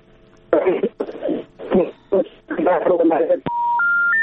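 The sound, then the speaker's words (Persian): A listener's telephone line cuts off during a radio call-in: a voice talks in short bursts, then a sharp click is followed by a steady electronic tone that steps up in pitch three times. “صدایتان قطع شد، صدای شنونده قطع شد.”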